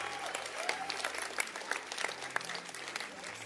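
Congregation clapping in a church service, a loud, dense, continuous patter of many hands, with a low sustained keyboard tone beneath it.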